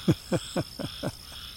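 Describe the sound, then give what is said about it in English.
Tree frogs calling in a chorus, heard during an outdoor walk: a quick, evenly spaced run of croaking pulses that grow fainter toward the end, over a faint, steady background. “It's me and a chorus of tree frogs”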